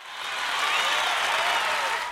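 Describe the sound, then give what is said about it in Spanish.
Applause from an audience, a short steady burst of clapping that swells quickly and holds at an even, dense level for about two seconds before easing off, with no voices over it. “Me he ganado un aplauso.”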